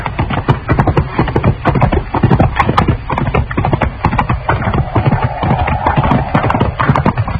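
Horses' hooves clip-clop steadily as riders head toward a hackberry tree, with many crisp, evenly paced strikes forming a continuous loud rhythm and no voices over them.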